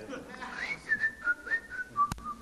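A person whistles a tune in a string of clear, sustained notes that drop slightly in pitch, soft and unaccompanied, with a single sharp click near the end.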